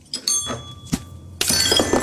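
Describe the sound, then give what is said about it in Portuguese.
A small glass beer bottle is thrown against a wall and smashes: a few sharp knocks, then a loud, bright burst of breaking glass with broad noise that carries on to the end. “Tó vai para levar a mini à boca, mas Nuno atira contra a parede.”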